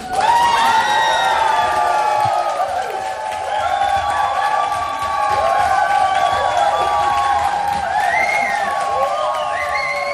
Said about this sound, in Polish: Tak, już za chwilę rozlegną się oklaski.